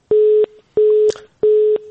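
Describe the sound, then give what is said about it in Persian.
Busy tone after a phone call is cut off: three identical steady beeps at a low-mid pitch, each lasting about a third of a second and separated by even gaps. “فکر میکنم تماس ظفر جان جاوید قطع شد متاسفانه.”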